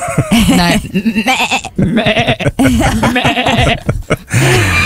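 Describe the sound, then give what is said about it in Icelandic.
A person's voice imitates a lamb bleating: a loud run of wavering, nasal bleats with quavering vibrato, broken by short gaps and ending on a lower held bleat. “Sko, ég hef alltaf verið mjög góð í að jarma.”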